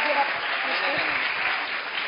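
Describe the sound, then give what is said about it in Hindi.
Loud applause for schoolchildren after their poetic mime performance, dense steady clapping from a crowd that fills the whole stretch without a break. “सभी Govardhan English medium school बच्चों का बहुत बहुत धन्यवाद और जोरदार तालियां बच्चों के लिए।”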